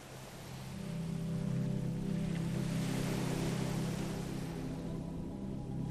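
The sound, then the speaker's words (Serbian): Sea waves wash in a steady, even roar that swells slightly and then holds, with a low continuous hum underneath and no voices. “More.”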